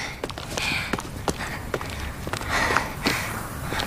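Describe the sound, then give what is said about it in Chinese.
Footsteps of someone walking, a steady run of soft, crunchy steps over a constant background hiss. “跟我走。走嘛，走。”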